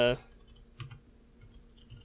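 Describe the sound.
Soft typing of a search into a phone: a few faint, scattered taps follow a brief voice at the start.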